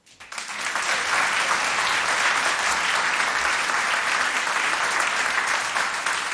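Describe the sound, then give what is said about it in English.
A large audience bursts into applause for a drummer taking his seat on stage, starting with a few claps and swelling within a second into a dense, even roar of clapping that holds steady for several seconds. “Give him another round of applause.”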